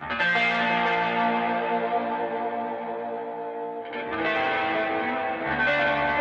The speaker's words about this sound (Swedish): Vi tar en Space Echo kort. Det låter så här,